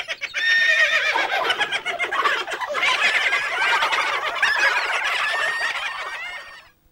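A white horse whinnies, a shrill, quavering neigh with rapid fluttering pulses that carries on for several seconds before fading out.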